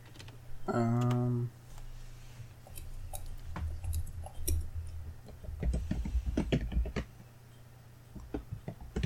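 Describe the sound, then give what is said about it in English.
Computer keyboard typing as changes are written down during a game: many irregular, light clicks and taps, with people talking at times. “I'm just writing what I'm changing it to.”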